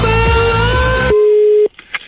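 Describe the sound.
A telephone line tone while placing a call: a steady single pitch sits under music at first, then continues alone for about half a second before cutting off abruptly.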